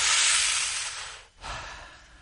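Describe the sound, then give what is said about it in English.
A group of people take a big deep breath together, making a broad airy hiss that swells and slowly fades. After a brief gap comes a softer rush of air. “Everybody with me, let's take a big deep breath.”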